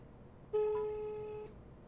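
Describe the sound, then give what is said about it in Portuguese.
A phone sounding for an incoming call: one steady electronic tone held for about a second over faint background hiss, then cutting off. “Peraí que acabou de acontecer uma coisa aqui agora. O Faustino tem tá me ligando.”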